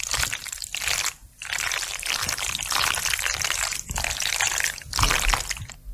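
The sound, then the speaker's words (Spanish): Wet, sticky squelching of cold macaroni and cheese, cooked the day before, being stirred in a pot to make a slimy monster effect. The dense squishing runs almost continuously, broken by a few short pauses. “lo que hacen es se cuece un plato de macarrones con queso el día anterior, se deja que se enfríen y luego se remueve la olla frente al micro.”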